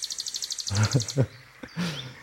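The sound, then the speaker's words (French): Nightingale song: a rapid run of high, sharp, evenly repeated notes, clear and fairly loud. “Et il s'agit du rossignol”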